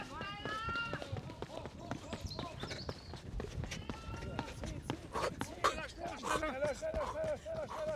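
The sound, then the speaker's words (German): Running footsteps in a 100 metre sprint, a rapid, even stream of many light thuds throughout, with a voice talking over the strides. “jetzt wird gesprintet und für den extra Boost habe ich hier meine schnelle Brille dabei. So, 19,6 Sekunden für 100 Meter, los geht's. Ich bin ja aufgeregt. Huh. Und laufen, laufen, laufen.”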